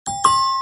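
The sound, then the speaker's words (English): A bright two-note ding-dong chime is the reward sound in the Heads Up trivia app after the phone is flipped: a quick first tone, then a louder second note that rings on clearly. “But when you get it right, you do this phone flipping action and it makes this very satisfying sound.”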